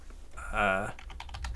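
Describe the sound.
Fingers type on a computer keyboard. A brief voiced sound is followed by a quick run of many light, rapid key clicks.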